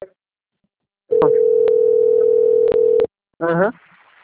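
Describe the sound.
An incoming call on a phone line gives a steady electronic telephone tone that holds for about two seconds, broken by a few sharp clicks, then falls silent before a brief voice is heard.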